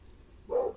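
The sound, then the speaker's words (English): A single short dog bark comes from outside. It is faint and brief, and rises once above a quiet, low background hum. “Dog barking outside.”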